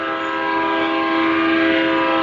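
The Transformers character Astrotrain's train horn: one loud, sustained, chord-like blast held at a steady pitch throughout.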